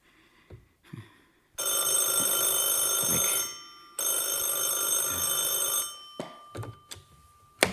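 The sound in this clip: A telephone bell rings in two long, loud, continuous bursts separated by a brief pause. A few faint knocks and clicks follow the second ring.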